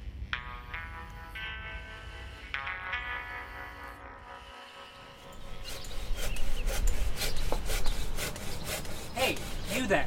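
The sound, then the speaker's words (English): A hand saw cuts through wood in rhythmic, rasping strokes that start partway through and grow louder and more insistent, after a quieter opening of faint tonal sounds. “Ma'am, please put that saw away.”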